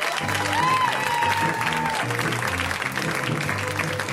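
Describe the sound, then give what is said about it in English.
Audience applause for a comedian: dense, steady clapping from a crowd that holds at an even, fairly loud level from start to finish. “Ladies and gentlemen, let's hear right now for Brandy Posey. Give it up for Brandy.”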